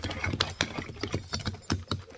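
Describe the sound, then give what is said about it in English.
Hooves of a horse team pulling a wagon down a road clop faintly in a steady, uneven rhythm, many muffled knocks following one another with a soft rumbling bed beneath them. “Listen. That's a team and wagon. Yeah, it's heading right down the road where the horses are hidden.”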